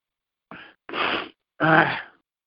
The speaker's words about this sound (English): I'm sneezing. A lot? I was sneezing while I was trying to answer.